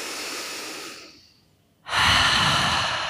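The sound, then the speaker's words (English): Deep breathing in a relaxation exercise: a long, airy breath fades out into a short pause, then a louder, breathy rush of air comes through an open mouth and carries on steadily. “Deep inhale and exhale it out. And 1 more time.”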